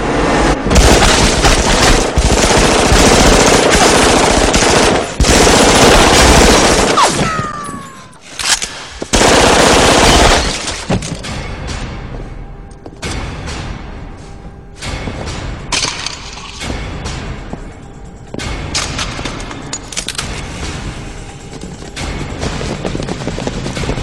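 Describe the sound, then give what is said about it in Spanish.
Heavy gunfire in a shootout as attackers storm a building: loud, dense bursts of automatic fire and booming shots, a brief lull, another intense burst, then steadier, lighter volleys of shots continuing to the end. “Jesús y el Diablo entran a balazos tal cual fueran Neo y Trinity.”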